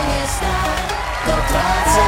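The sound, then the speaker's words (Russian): Crowd cheering, whooping and yelling to greet a new debut song: a loud, sustained burst of shouts that swells slightly toward the end, with no speech. “Готовимся кричать «Ура!»”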